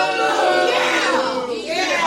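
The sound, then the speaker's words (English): Booing from an audience at a church Bible lesson, many overlapping voices sustaining a loud, wavering drone for about two seconds. “Short and sweet boo. You can't be booing for 10 seconds.”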